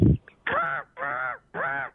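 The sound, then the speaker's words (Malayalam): A human voice imitates a crow cawing, giving three harsh, nasal caws of similar length at an even rhythm. “അടുത്തത് കാക്ക.”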